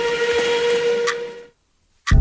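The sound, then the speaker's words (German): Steam train whistle as the train pulls in: a sustained, hissing whistle blast for about a second and a half, then a short silence before a loud, low rumble cuts in. “Der Explain Train fährt ein. Nächster Halt?”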